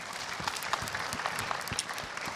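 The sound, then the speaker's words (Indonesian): Applause for a comedian at a stand-up comedy event: a dense, even patter of many clapping hands that stays fairly soft and steady throughout. “Bintang, tepuk tangan buat Bintang.”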